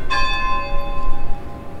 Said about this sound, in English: Church bells tolled to begin a few minutes of silence.